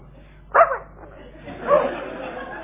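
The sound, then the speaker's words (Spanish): A dog barks and whimpers while sniffer dogs search a boat for a necklace: two short, yelping barks about a second apart, each trailing into a thin whine, with a soft murmur between them. “¿Ahí le pueden sacar ese perro de acá? ¡Qué pesado! ¿Qué hace ese perro? ¡Qué molesto!”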